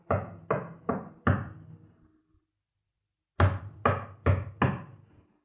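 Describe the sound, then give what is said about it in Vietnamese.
Knocking at night, sharp wooden raps in two separate bursts of four knocks each, every knock loud with a short ringing decay, the bursts divided by a long silence and no voices. “Ông ta định trở vào giường ngủ tiếp thì tiếng gõ lại bắt đầu vang lên.”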